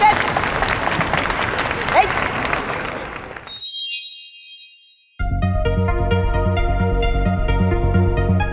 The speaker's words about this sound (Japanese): されると踏み込む足音や道着の擦れる音に観客席からは歓声と拍手が送られました。